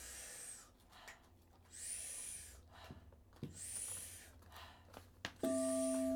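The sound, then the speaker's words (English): Breathing exercise with powerful, deep inhales and softer exhales, forming a few slow, faint breath cycles separated by quiet. A steady hum starts near the end. “Powerful inhale. Soft exhale. Just about a third of the breath exits the body.”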